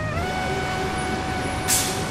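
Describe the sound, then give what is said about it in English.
Street traffic at the corner of Hollywood and Vine in Hollywood: a dense, steady rumble of engines, with a sharp air-brake hiss near the end and no voices. “We are at the corner of Hollywood and Vine, and we've come to talk to people, to find out what's going on literally in the heart of Hollywood.”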